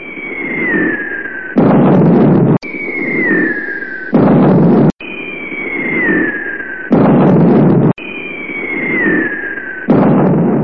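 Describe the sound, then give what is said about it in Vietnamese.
Aircraft overhead and cluster bombs exploding in a wartime raid: four repeated cycles of a descending whistling whine, each followed by a loud, abrupt roaring blast that cuts off sharply. “Lại có tiếng máy bay, tiếng bom bi nổ khắp nơi.”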